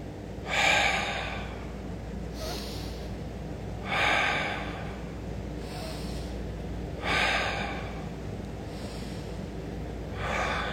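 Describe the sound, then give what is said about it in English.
Four deep breaths drawn through the right nostril while the left is held closed, each a soft breathy rush. They come at even, unhurried intervals over a steady low background, with no talk. “I want you to close your left nostril. And I want you to take a deep breath through the right nostril 4 times. Do it with me.”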